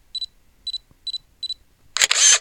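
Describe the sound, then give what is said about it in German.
A camera taking a photo: four short, evenly spaced high beeps, then a loud, noisy shutter burst lasting about half a second. “Stoppe die Bewegung, mache ein Foto.”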